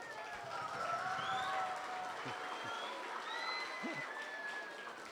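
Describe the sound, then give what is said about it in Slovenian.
Faint audience applause at a school gathering with a translator, with soft, steady clapping throughout and voices audible over it. “Dajmo še en aplavz za gospo Urško.”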